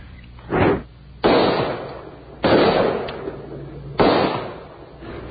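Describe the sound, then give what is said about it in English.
Gunfire from an M16 rifle shooting watermelons: several loud, sharp blasts spaced irregularly apart, each one trailing off in a rumbling decay. “He's shooting a watermelon, just blowing them both up.”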